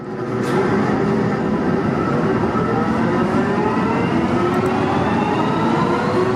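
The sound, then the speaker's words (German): A subway train moves through an underground station in Bochum, a loud, steady rushing roar with tonal whines that glide upward as it runs. “Mitte September wird die U-Bahn-Haltestelle Bergbaumuseum in Bochum unter Denkmalschutz gestellt, als erste U-Bahn-Station in NRW überhaupt.”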